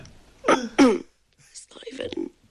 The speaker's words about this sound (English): The coughs sound performative.